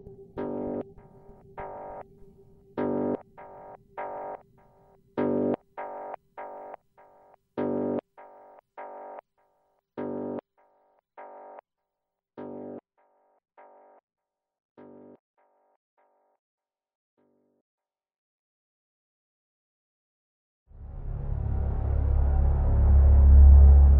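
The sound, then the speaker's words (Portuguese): Strange electronic interference in a spaceship's system, suggesting a robot attack: a series of distorted synthetic tone pulses in an uneven rhythm that fade away, then a silent gap before a loud rushing noise surges in at the end. “o operador da nave se depara com uma estranha interferência no sistema, que parece ser um possível ataque de um robô vindo da cidade das máquinas”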